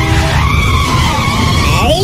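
Car tires skidding in a loud, continuous squeal over low engine rumble, with the squealing tone sweeping upward near the end.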